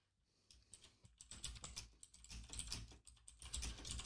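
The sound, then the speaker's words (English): Computer keyboard typing: a quick, irregular patter of many soft keystroke clicks, faint overall and growing slightly busier toward the end, with no voices. “Always got to type it out too.”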